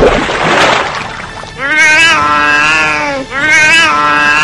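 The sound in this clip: A wet cat that has jumped out of a bathtub shakes its whole body, spraying and splattering water, then gives two long, drawn-out meows that are loud and clear.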